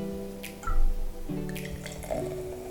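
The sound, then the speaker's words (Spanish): Sekt sparkling wine trickles and splashes as it is poured into a glass, a soft, continuous liquid sound with a few brief drips and no talking. “Les aseguro que todavía no conozco ese Sekt tampoco. Me voy llenando la copa y también para llegar a la fase visual y ver cómo se presenta el vino de color.”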